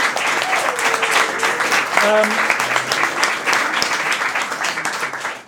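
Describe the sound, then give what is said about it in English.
Audience applause for the show's illustrator, a full, steady patter of many hands with a few brief voices rising over it, tapering off at the very end. “A big round of applause for Andrew Keppel, our illustrator.”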